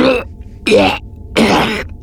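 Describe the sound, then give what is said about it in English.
A man gives three harsh, hacking coughs, each a loud, rasping burst separated by brief silences. “"You'll help me to the escape pod," he said between hacking coughs.”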